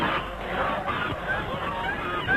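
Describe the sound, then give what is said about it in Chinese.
A flock of white geese honking as a bicycle rider crashes into them on a small path: many dense, overlapping nasal calls, continuous and fairly loud, with no pauses. “终于冲进了鹅群”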